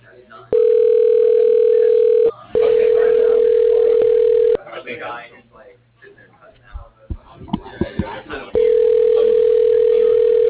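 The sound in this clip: Telephone ringback tones after dialing an extension on an office phone system: two long, steady, loud tones with a short gap between, then a stretch of voices, then a third steady tone.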